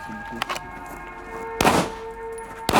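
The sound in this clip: A few sharp, muffled bangs of shots fired in a police shooting exercise, spaced well apart, with the middle shot loudest and longest, over a faint steady hum.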